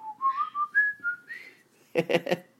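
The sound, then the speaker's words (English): A pet bird whistles freely on its own, a string of clear, bright notes that slide and hop between pitches, with no talk over it. “I love it when they do that. They just free whistle. It's like really nice. I love it when she does that.”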